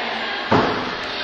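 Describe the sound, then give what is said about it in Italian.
A door being closed makes a single short, dull thud over a steady background hiss, with no talk. “senta, mi chiude quella porta con lui.”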